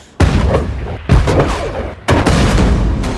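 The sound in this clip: Ship's cannons firing during a naval gun exercise in a film scene: three very loud, deep booms about a second apart, each leaving a heavy rolling rumble that carries into the next blast.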